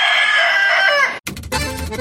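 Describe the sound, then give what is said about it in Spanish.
A rooster of the kind kept for cockfighting gives a single loud, drawn-out crow that sinks in pitch at the end, then breaks into a short, harsher burst of noise. “Y que vivan las peleas de gallos.”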